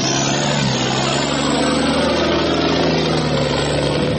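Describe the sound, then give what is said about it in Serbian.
Engine noise from a military truck on a quiet village morning: a loud, steady, low droning rumble with an even hum that holds level throughout, alone and without voices. “Mirno jutarnje prepodne na momente prekine prolaz bučnijeg vojnog kamiona ili vozila koje izazivaju znatiželjne poglede starijih meštana iz obližnje kafanice.”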